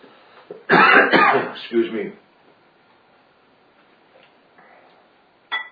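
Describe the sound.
Someone coughs and clears their throat as if something is caught in it, in one loud rasping burst of a few hacking pulses. Near silence follows, then a brief faint sound at the end.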